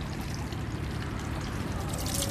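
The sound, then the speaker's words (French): Clean water poured over a left hand during hand washing makes a continuous, fairly loud splashing trickle, steady from start to finish, with no talking. “On verse une fois comme ça sur la main gauche.”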